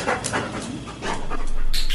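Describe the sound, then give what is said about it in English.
Quick, rhythmic panting from a female Labrador Retriever working dog in training, with breathy bursts early and steady, evenly pulsing breaths through the second half. “Good girl. She's a Labrador Retriever”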